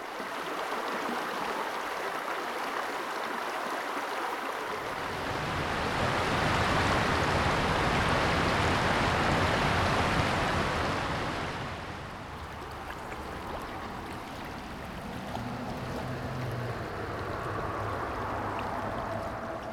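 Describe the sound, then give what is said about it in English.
The Smith River rushes at Jacks Creek Covered Bridge in Patrick County, at the outflow of the Philpott Reservoir Dam; the steady, hissing flow swells louder midway, then eases back to a softer continuous rush, with no voices. “You heard the Smith River at the Jacks Creek Covered Bridge in Patrick County, at the outflow of the Philpott Reservoir Dam”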